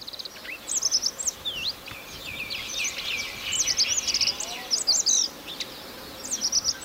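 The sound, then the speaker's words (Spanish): Radde's accentor (Prunella ocularis), a small Caucasus songbird, sings in quiet bursts of short, high, rapid notes, repeated several times over a steady soft background. “Ahí se le oye bajito, pero está. Está cantando el acentor de Rat. Su canto consiste en una serie de notas cortas, suaves y aceleradas que culminan en un trino breve.”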